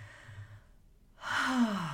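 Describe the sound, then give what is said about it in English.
A deep grounding breath: a faint, soft inhale is followed by a louder, audible sigh-like exhale that drops in pitch as it trails off. “Let's just take a deep grounding breath.”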